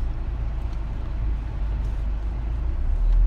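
Low, constant rumble of a car driving in Texas, with deep engine and road hum that swells slightly toward the end and no talk.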